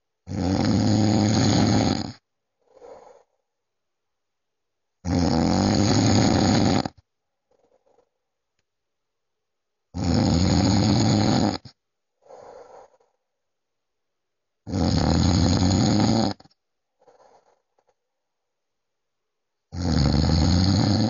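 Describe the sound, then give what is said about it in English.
A man snoring while asleep: five loud, rasping snores about two seconds long, evenly spaced, the last cut off, each followed by a much fainter breath during the quiet gaps. “I recorded this when my dad was asleep. He snores a lot.”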